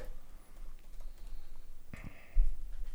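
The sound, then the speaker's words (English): Typing on a computer keyboard, scattered light key clicks in an uneven rhythm, fairly quiet and heard alone, with a louder burst of activity near the end. “No, you just typed in SpongeBob trailer.”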